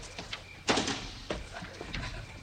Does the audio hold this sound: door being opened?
yes